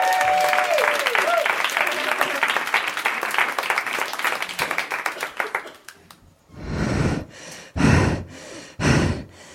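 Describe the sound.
Audience applause for a comedian at a comedy show, a dense, steady roar of clapping for about six seconds, then giving way to a few heavy, breathy gasps.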